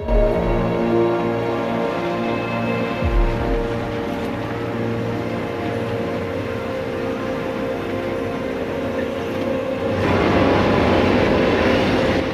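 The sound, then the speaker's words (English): A freight train passes slowly with a steady, loud rumble and sustained humming tones. The sound continues for many seconds and grows noisier and harsher toward the end. “A freight train passing slowly by”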